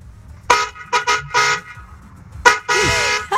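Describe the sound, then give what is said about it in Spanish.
A car horn honks, recorded in a voice note: several loud, bright honks of uneven length, some short toots and a longer final blast, separated by brief gaps. “Mandó 40 segundos de nota de voz echando pito.”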